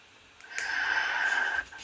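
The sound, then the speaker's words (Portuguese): One deep breath: a long, airy rush of about a second with a faint whistling wheeze running through it, heard alone. “Respirei fundo aqui.”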